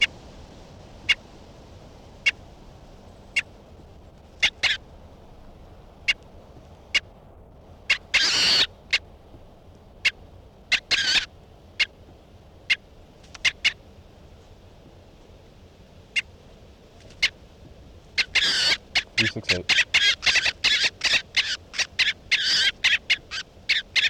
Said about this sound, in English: this is bird 368 being handled.